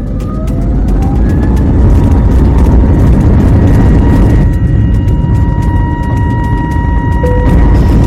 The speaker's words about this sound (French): Paré pour le décollage.